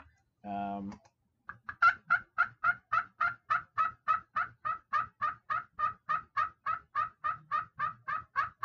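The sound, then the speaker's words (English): Turkey clucking made on a pot call while spring turkey hunting: a fast, steady run of many short, sharp clucks at an even rhythm, clear and moderately loud, with no talk over them. “that's perfect clucking, you know. You can do higher pitched ones.”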